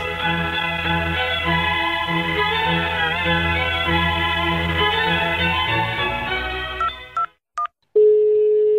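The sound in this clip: A phone being dialed gives a few short keypad beeps near the end, followed by a steady tone. A long, buzzing, harmonic drone comes before them, and no one speaks.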